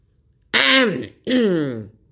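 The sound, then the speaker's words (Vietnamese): A loud, voiced cough or throat-clearing is performed by a voice acting it out, in two strong harsh bursts separated by a short pause, the second slightly shorter. “liền ho mạnh một tiếng”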